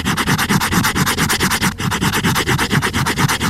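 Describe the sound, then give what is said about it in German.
The spine of a hardcover book binding is rubbed in quick, even back-and-forth strokes that make a loud, dry scraping rasp. The strokes repeat many times, with a brief break about halfway through. “Ein Hardcover-Einband von einem Buch.”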